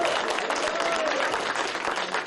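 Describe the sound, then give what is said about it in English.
An NFL team applauding in the locker room after a win, a thick, continuous clatter of many clapping hands that stays loud and steady for about two seconds. “Here's Ben McAdoo in the locker room after the win. All right, here we go. Hey, give yourself a round of applause.”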